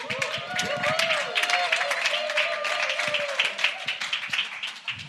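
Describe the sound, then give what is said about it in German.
Audience applause at a church worship evening, dense steady clapping that fills the whole stretch, with voices mixed in. “Gebt ihr mal einen Applaus.”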